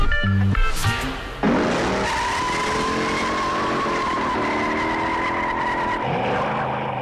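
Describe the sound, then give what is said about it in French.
Tires skid and squeal as a Ford Mustang Fastback races through San Francisco streets in a film car chase; the loud, sustained screech rides over a roaring engine throughout. “c'est l'une des scènes cultes du cinéma, la course-poursuite dans les rues de San Francisco, le lieutenant Bullitt, interprété par Steve McQueen au volant de sa Ford Mustang Fastback.”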